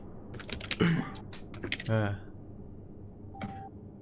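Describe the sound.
Someone types on a computer keyboard, a quick burst of light key clicks mixed in with people talking.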